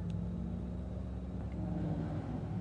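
Racing car engine rumbling as it launches toward the start line at a British motorsport venue. The drone is steady, loud and low-pitched, with no distinct revving peaks.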